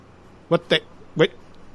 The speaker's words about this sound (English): What's going on with this crows?